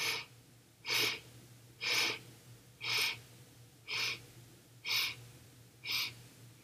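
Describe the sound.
Deep inhaling breaths during a guided breathing exercise: six sharp, airy intakes of breath, evenly spaced about a second apart, fairly soft over a faint low hum, with no talk.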